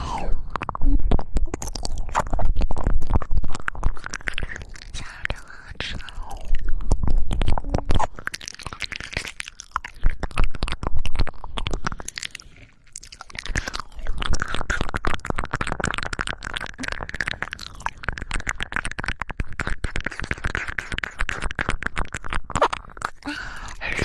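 Someone chews and eats a crunchy snack called little ears: many crisp crackles and munching crunches in uneven bursts, loud and continuous, with a brief lull midway and no talking.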